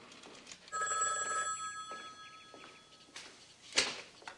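A telephone rings in a house hallway in the morning, giving a bright, trilling bell burst. A louder sharp clatter follows near the end, all fairly faint overall.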